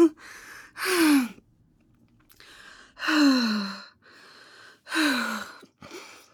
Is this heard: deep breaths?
yes